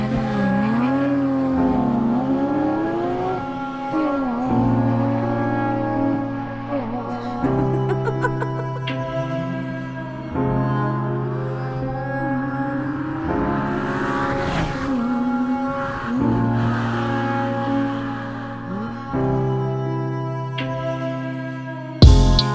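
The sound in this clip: Engine roar and revving of a Porsche driving off, used as an effect within a song, running over the steady beat and melody of the music.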